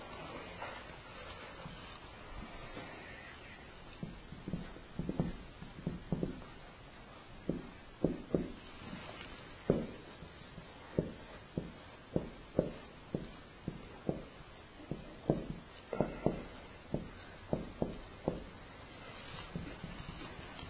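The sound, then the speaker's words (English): A sketch is drawn on paper, heard as many scratchy pen or pencil strokes in an uneven rhythm that grow more frequent after the first few seconds. “Let me draw this sketch because this is pertinent.”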